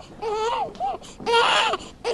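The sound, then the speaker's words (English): A newborn baby cries in a neonatal intensive care unit in a hospital. Several wavering, high wails are broken by brief pauses, with the later cries louder and longer. “neonatal intensive care units like this one at Tampa General Hospital are seeing more babies with problems.”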